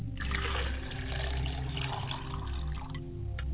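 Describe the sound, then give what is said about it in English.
Water poured out as a libation in an ancestral rite: a steady splashing trickle lasting the whole clip, with a low, even hum underneath. “I say, Ashe, libation. I mustn't forget to wash my face. I cannot greet the ancestors with a stale face and my hands. I say, libation.”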